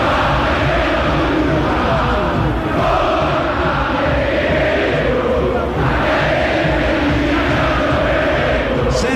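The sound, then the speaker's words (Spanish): Boca football fans sing and chant in the stadium during a match, a dense, continuous roar of many voices with no clear breaks. “Y canta el público de Boca.”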